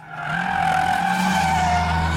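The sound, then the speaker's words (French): BMW tyres screech in a car-spinning rodeo in a South African township. The squeal is loud and sustained, holding steady over a low engine drone. “Voilà ce que vous entendez au loin derrière moi, même assez près. Ça s'appelle du spinning, du verbe to spin en anglais, tourner. Un rodéo automobile où les conducteurs font crisser les pneus de leur BMW”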